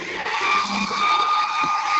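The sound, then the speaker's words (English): A leaf blower clearing a backyard gives a continuous, loud, airy roar with a broad hiss that wavers slightly in strength but never stops, with no voices over it. “With a leaf blower? I'm on holidays, and what better way to annoy your neighbours who kept me up all night with their bleeding crackers than to spend the next hour blowing the backyard?”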